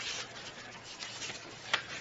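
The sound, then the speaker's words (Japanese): Soft papery rustle of a book page being turned, a low continuous rubbing texture that ends in one brief, sharper flick. “次のページこうやってめくっているにもかかわらず、さっきのページのことが気にかかってしまうんでしょ。”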